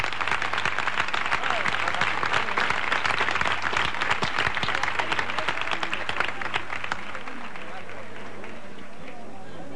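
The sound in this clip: An audience applauds after a saeta, a sung religious flamenco lament. Dense, steady clapping with crowd voices mixed in holds for about seven seconds, then thins and softens.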